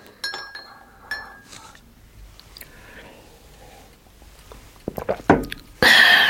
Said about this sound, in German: Meine Tante saß gedankenverloren über den Frühstückstisch gebeugt und rührte mit einem Löffel in ihrer Teetasse herum.